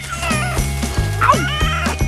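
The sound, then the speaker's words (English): A cat yowls and meows in agitation, giving a few drawn-out cries with a brief wavering wail in the middle, set against a steady low tonal backdrop. “That cat is mental.”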